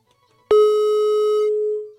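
A single steady telephone tone sounds on a call-in phone line after a caller hangs up. It is loud and mid-pitched, holds for about a second and a half, then fades out, with nothing else around it.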